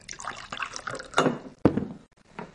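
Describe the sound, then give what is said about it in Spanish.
Whisky poured from a bottle into two glasses behind a tavern counter: splashy liquid trickles with two louder gushes partway through, then a brief quiet and a softer final splash. “sirve dos whiskies tras el mostrador”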